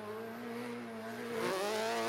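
Engine note of an all-wheel-drive drift car with a sequential gearbox, faint and droning as it climbs. Partway through, the pitch drops suddenly on a quick gear shift, then rises again, a little louder than before.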